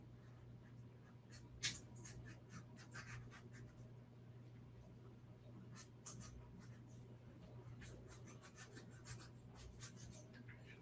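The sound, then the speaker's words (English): Skin is peeled from a large cucumber in many soft, quick scraping and rasping strokes, faint and irregular over a low steady hum. “Just cutting the ends off, and I'm actually just going to like take the skin off too.”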